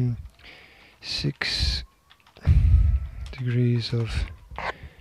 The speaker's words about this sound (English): So if I type in